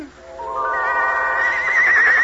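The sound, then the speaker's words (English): One of six white horses pulling a golden coach gives a single long whinny. Its tone climbs steadily in pitch and wavers with a fast tremble as it grows louder toward the end. “One golden coach and 6 white horses.”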